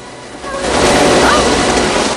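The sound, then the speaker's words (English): Water gushes out as a door springs open and floods down a staircase. A loud, broad rushing wash swells after a brief quieter start, then pours on steadily. “Cranston helps from his side, and the door springs open, gallons of water pouring out over Margot and washing her down the stairs.”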